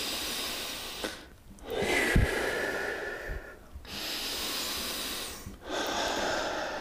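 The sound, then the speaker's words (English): Deep breathing, drawn in through the nose and let out through the mouth during a guided relaxation exercise, heard alone as a few long, airy, hissing breaths that swell and fade in a slow, steady rhythm. “Do you want to do 5 breaths? Yep. Real quick. You do. Through the nose and out the mouth. Through the nose.”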